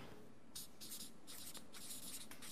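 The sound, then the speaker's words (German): A name being written out in a quick series of short, scratchy strokes. The sound is quiet, with brief pauses between strokes and no talk. “ich schreibe das mal, Machaeus,”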